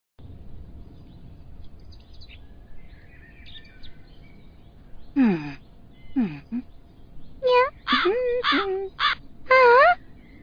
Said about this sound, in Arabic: إنه غراب.